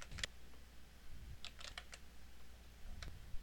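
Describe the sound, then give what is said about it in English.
Typing on a computer keyboard while entering a username and password to log in to a university website: sparse, faint keystrokes with several scattered clicks and short pauses. “Log in to your MetroConnect account through the Metropolitan State website. Enter your username and password.”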